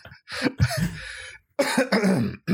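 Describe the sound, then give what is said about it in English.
A person clears their throat in a few loud, gravelly, voiced bursts separated by short pauses, with no words spoken. “Clear that throat.”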